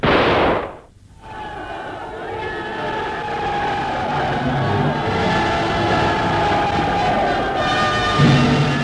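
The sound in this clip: Crowd cheering in celebration of a guerrilla unit's battle victory, a dense, roaring mass of voices that swells in after a brief opening sound cuts off and holds loud and steady for several seconds.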